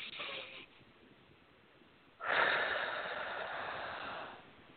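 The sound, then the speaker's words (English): A nice, deep breath is taken during a guided healing session: a short soft airy rush, then a pause, then a longer, louder breath lasting over two seconds. “Now I should take a nice, deep, deep breath.”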